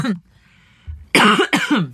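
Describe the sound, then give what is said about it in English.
A cough from someone getting over a cold with congestion in the throat, a couple of harsh, abrupt bursts that run together with speech. “I am still getting over this little cough from being in New York, having a little bit of congestion in my throat.”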